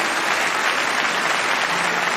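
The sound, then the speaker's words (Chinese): Audience applause in tribute to a firefighter: a dense, steady wash of many hands clapping that holds a loud, even level throughout, with no voices over it. “我想此时此刻我们应该响起掌声，向巴特尔的父亲这名优秀的消防员表示敬意。”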